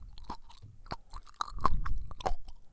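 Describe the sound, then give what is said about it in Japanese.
Crunchy bites and chewing of a salty snack: a run of sharp, crackling crunches that grow louder and denser in the second half, with no talk. “サク サク、そしてかじる。 さくさく、裂けてんじゃないの？”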